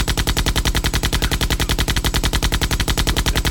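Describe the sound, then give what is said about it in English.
Automatic gunfire from an AK rifle, used as a sound effect: a loud, continuous burst of many rapid, evenly spaced shots with a steady mechanical rhythm and no pauses. “shoot us with an AK”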